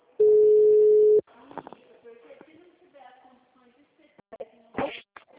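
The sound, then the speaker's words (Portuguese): A single steady telephone busy tone after a dropped call sounds for about a second, then gives way to soft talk and scattered small handling noises. “Oi, caiu a ligação. Verdade, caiu.”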